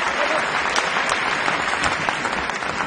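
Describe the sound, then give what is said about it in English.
Parents applaud in a dark school auditorium after a children's performance: dense, steady clapping at moderate loudness that keeps an even level from start to finish. “Parents applaud in a dark school auditorium. Sarah joins in, looking dazed.”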